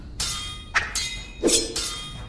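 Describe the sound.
Sword clashes in an audio drama duel: several sharp, bright metallic bursts and swishes in quick succession, each ringing briefly at high pitch before the next strike.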